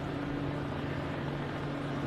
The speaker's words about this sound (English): And Handley takes outside for a ball as a helicopter goes over the center field side of the stadium.